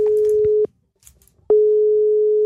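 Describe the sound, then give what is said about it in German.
Telephone call tone while calling someone: a steady, single-pitched tone cuts off, followed by a short quiet pause with faint noise, then the same loud tone resumes and holds to the end. “Die Gewinnerin war Daniela und ich habe ihr angerufen, um die traurige Botschaft mitteilen.”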